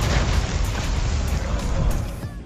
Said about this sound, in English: you can blow them up even before the dynamite is lit by shooting the sticks in their hands.